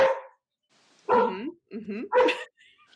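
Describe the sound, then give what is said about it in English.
A dog barks in four short, bright yips with quiet gaps between them, the last ones coming close together. “Is that your dog, Angie? I'm babysitting three dogs.”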